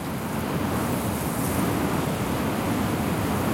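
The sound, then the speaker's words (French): Fierce wind blows without letup against an orange sand dune 50 to 60 meters high in the Mauritanian desert on a February morning. It makes a dense, steady, roaring rush of noise with no voices and no animals. “plus aucun animal, rien que du vent et du sable peuvent faire votre bonheur d'audio-naturaliste, Fernand Deroussen”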